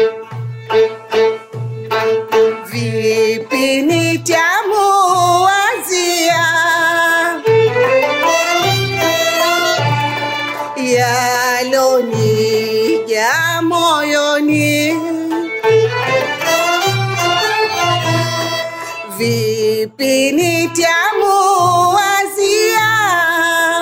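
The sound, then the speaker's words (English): Taarab music from a January 2018 field recording in Zanzibar: loud, continuous ensemble playing with wavering melodic lines over steady, pulsing low notes, with no pauses throughout. “So you should all go to the concert tomorrow night of Taarab music in the Art Center. My colleagues here went and made high-quality field recordings in Zanzibar in January of 2018. It sounds like this.”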